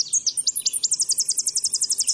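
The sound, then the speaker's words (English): A Tennessee warbler sings a song of high, thin chirps. A loose, varied run of notes opens the song and then settles into a rapid, even series of many identical short notes. The song is fairly faint and heard alone. “Tennessee warblers do most of their nectar drinking in tropical forests on their wintering grounds.”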